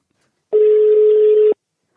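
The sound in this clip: A telephone call to a father connecting sounds as a single steady ringback tone lasting about a second, level in pitch and heard alone, followed by a tiny click.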